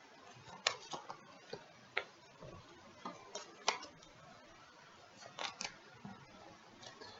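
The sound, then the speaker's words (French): Tarot de Marseille cards being shuffled, heard as many soft, irregular flicks, taps and papery clicks, quiet and scattered over a faint background hiss. “Et eh bien, c'est parti de mélanger les arcanes.”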